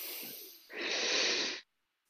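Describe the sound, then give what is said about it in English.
A deep inhalation during a yoga breathing exercise: a soft breathy hiss gives way to a louder, steady airy rush lasting about a second, then the sound stops. “Take a deep breath in.”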